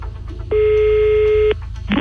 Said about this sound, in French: Et pour l'instant, ça ne fait que sonner.